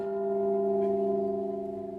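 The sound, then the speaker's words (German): A gong struck from a house roof to open a naturalization ceremony rings with a sustained tone of steady layered harmonics that gently pulse and slowly fade. “Mit dem Gong vom Dach des Hauses und den Worten der amerikanischen Unabhängigkeitserklärung beginnt die öffentliche”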